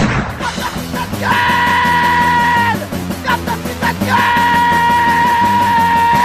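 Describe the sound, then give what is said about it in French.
A man yelling loudly: two long, held shouts at a steady high pitch, each lasting over a second, over a dense, rhythmic pounding background. “Excusez, j'ai crié trop fort.”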